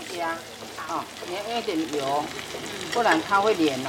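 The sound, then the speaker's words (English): Taiwanese hamburger patties fry in cooking oil in a pan, giving a steady, crackling sizzle heard under continuous talk. “Make sure you put enough cooking oil, otherwise the meat will stick it to the pan.”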